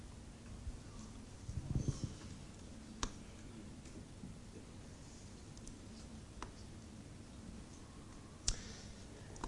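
A few sparse, faint clicks come from a computer keyboard as the Tab key is pressed several times. They are separated by quiet gaps, and one is slightly louder near the end.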